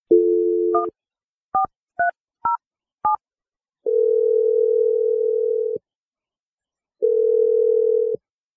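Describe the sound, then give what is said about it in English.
A phone number being dialed: a brief dial tone blends into the first of five short keypad beeps, followed by two long, steady ringing tones separated by a pause. “I'm going to dial Kristen's number. We'll see if she answers and what she has to say.”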